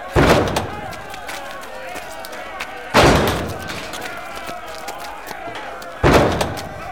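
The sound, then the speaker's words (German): Heavy booming impacts of a battering ram, an iron-tipped wooden log, striking a castle gate: three thudding blows spaced about three seconds apart, each with a ringing decay over a continuous rumbling background. “Einige haben Rammböcke. Damit wollen sie das Tor kaputt machen.”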